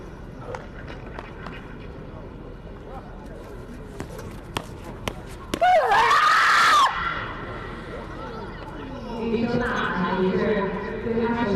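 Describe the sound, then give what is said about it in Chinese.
An athlete's loud, drawn-out yell during a final throw at a throwing event rises and then falls in pitch. A few sharp taps come before it, and crowd noise swells afterward. “一声呐喊结束了他的最后一掷”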